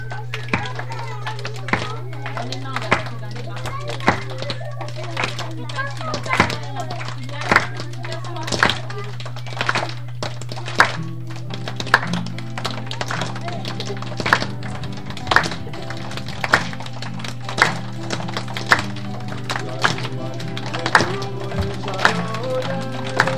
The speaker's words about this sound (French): Vous savez claquer des doigts, non? Ceux qui savent claquer des doigts, ils pensent qu'on gagne pas. C'est pour le rythme.